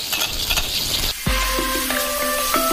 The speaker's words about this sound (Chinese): 用珊瑚椒油爆香酸菜，再加上大量的蒜末